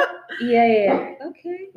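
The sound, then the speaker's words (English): Dog barking: a few yelping barks of uneven length, one long and drawn out followed by shorter clipped calls, fairly loud against a quiet background. “Okay. I think that dog wants to be part of our conversation.”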